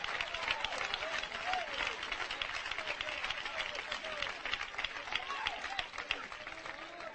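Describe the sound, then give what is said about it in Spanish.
An audience applauds in steady, dense clapping that runs unbroken for several seconds, fairly faint, with crowd noise blended in. “ese aplauso es para Donald Trump, ¿verdad, hermanos?”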